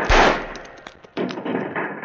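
Gunfire in a radio drama battle scene on a riverbank: a heavy opening blast, then a rapid string of sharp shots and crackling bursts, loud throughout.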